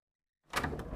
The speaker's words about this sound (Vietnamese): Yên Nhi liền mở cửa bước vào